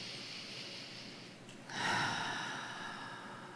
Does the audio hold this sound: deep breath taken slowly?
yes